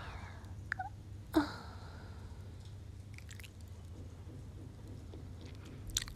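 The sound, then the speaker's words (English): Chewing and biting at a prepared feast come as a few soft, moist crunches. One sharper bite stands out early, over a low, steady hum. “let us eat. Have a seat, Captain. Our feast is prepared.”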